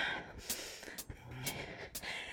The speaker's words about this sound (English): Breathe. In the nose, out the mouth.